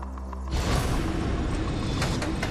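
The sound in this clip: A game show counter-drop machine releases a counter in drop zone 3: a sudden mechanical clunk, then rattling and clicking as the counter falls through. The sound is moderately loud and heard alone.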